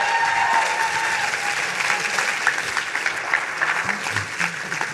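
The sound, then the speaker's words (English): Audience applause for a speaker at the close of a talk, many hands clapping in a dense, continuous wash with small peaks and dips in loudness. “Please give Miki Agrawal a big round of applause.”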